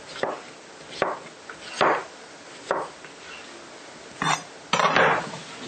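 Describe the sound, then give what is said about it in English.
A knife cuts a cucumber lengthwise on a board, making soft, faint chopping thuds spaced unevenly, about six in all. “So slice it lengthwise, twice, and then kind of not quite a half inch slice. We don't want them too big.”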